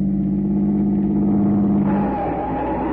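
A car engine drones loudly as the car cuts in ahead of a red convertible that is about to drive off. The low, steady hum shifts in tone about two-thirds of the way through, and no voices are heard.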